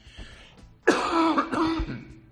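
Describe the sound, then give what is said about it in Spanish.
A raspy cough and throat clearing from someone who has breathed in wildfire smoke: a sudden harsh onset, then a rough, gravelly rasp that lasts over a second, heard alone without talk. “Mira, esta tos que tengo y esta voz, palabra, es que tengo el humo dentro.”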